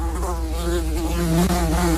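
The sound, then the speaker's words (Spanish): An insistent housefly buzzes alone in a continuous, fairly loud drone. Its pitch wavers slightly as it flies. “Una mosca insistente que se arrojaba contra la gente, peor que la peste.”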